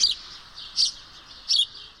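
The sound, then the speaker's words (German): House sparrows chirping at their nests in ivy on a house wall: three short, bright, high-pitched chirps spaced about evenly apart, fairly faint against a quiet background. “Und dadurch sind die Spatzen erhalten geblieben. Und die Brutplätze sind hier in dem Efeu an der Hauswand. Da sind die Nester drin.”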